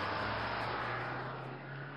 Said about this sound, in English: He scrambled out after the bus, shoes untied, and nearly tripped over himself. Wait, I'll be right... Oh, bye, bus.